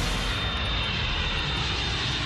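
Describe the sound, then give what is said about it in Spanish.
A presidential jet known as Air Force One takes off, its engines making a loud, steady roar that fills the whole clip with no other sounds. “Air Force One, clear for takeoff.”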